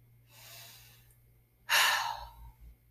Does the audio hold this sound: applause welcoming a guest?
no

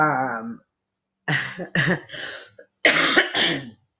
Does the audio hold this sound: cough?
yes

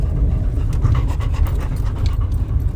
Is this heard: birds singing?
no

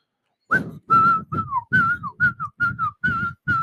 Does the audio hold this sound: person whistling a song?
yes

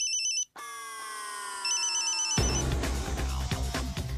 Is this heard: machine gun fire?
no

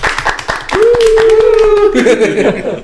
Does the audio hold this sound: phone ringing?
no

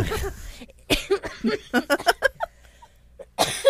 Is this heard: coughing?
yes

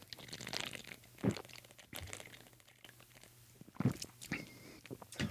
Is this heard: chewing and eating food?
yes

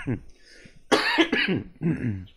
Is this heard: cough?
yes

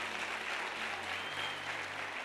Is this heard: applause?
yes

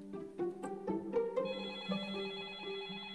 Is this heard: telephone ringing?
yes

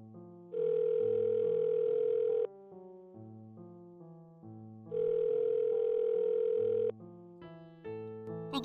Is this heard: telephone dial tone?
yes

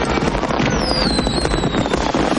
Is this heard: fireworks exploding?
yes

